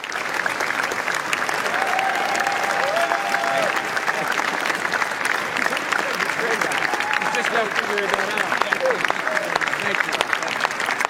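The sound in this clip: A standing ovation after a Cannes film screening for the final installment of an action series begun in 1996: dense, continuous applause that holds steady and loud throughout, with faint crowd voices mixed in.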